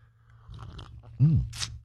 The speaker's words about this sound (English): All right, I'm going to grab my cup. All right, grab a little coffee, a little juice, a little OJ, whatever you need to get your day off to a good start. It's called the Morning Slurp.